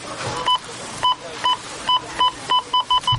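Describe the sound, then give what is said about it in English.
Beeping from a supermarket checkout scanner: nine identical electronic tones, evenly spaced at first and then coming faster toward the end, over faint background noise. “No, it's Rona week when the checkout sounds like this.”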